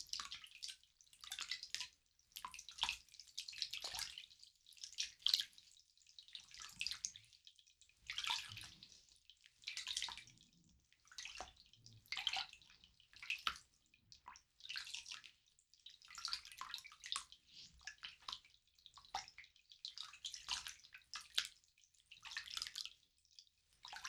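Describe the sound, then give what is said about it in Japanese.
Water splashing and trickling as gel is rinsed off a foot, in many short, soft bursts of running and dripping water separated by brief quiet gaps. “このくらいで一旦ジェルを 洗い流しますね。”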